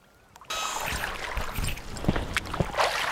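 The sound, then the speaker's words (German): Oars splash as a rowboat moves across the Old Danube. A broad, loud watery wash begins abruptly after a short quiet moment, with a few stronger strokes standing out. “Einmal waren wir alle zusammen an der alten Donau rudern.”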